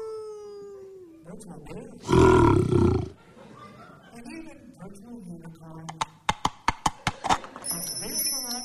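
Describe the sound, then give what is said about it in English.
A virtual pet wolf gives a loud, rough growling roar lasting about a second. Quieter sounds follow it, including a run of sharp clicks. “Virtual wolves.”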